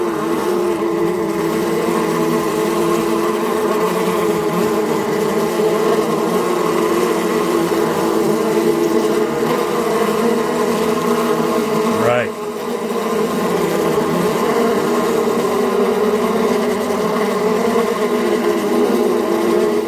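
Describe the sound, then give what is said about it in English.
Bees buzzing in a dense, steady drone that holds at an even loudness for the whole stretch, with only a brief dip partway through. “There's some terrifying bees, everybody.”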